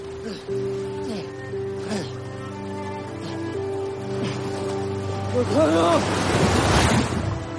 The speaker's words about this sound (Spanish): Sigue avanzando hacia el barco que se intuye lejano. Las olas van llegando de mayor tamaño conforme avanza.